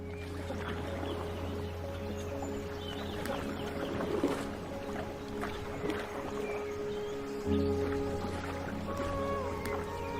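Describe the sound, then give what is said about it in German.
Paddling a boat in a PlayStation VR 2 game produces steady water sloshing and splashing over a continuous low droning hum. The sound stays even in level throughout. “Und dieses Mal paddeln wir tatsächlich.”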